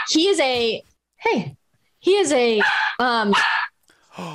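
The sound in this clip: A dog barks and yips in a series of loud, tonal bursts separated by short silent gaps, some calls bending sharply in pitch.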